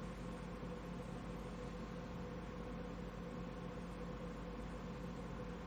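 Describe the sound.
Car engine and road noise fill a moving vehicle while driving. There is a steady, faint, unbroken hum and rush with no talking.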